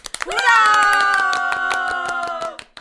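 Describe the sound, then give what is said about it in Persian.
A group of students claps in a steady, orderly rhythm for a classmate, many even handclaps running under a drawn-out voiced cheer that fades before the final few claps. “آفرین یه کف مرتب براش بزنین خیلی قشنگ معنی کرد.”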